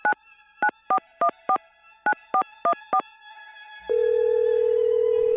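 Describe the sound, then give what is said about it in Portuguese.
Touch-tone dialing on a telephone line: nine short dual-tone beeps in two quick groups, followed by a steady low tone with a buzzing hum beneath it. “Vamos lá então. Deixa eu plugar a linha aqui. Discar.”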